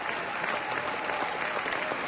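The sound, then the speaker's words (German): Thunderous applause from a standing ovation by a large audience in a big philharmonic concert hall after a choir performance: dense, continuous clapping at a fairly even level throughout, with no voices rising above it. “Am Ende gibt es Standing Ovations und tosenden Applaus.”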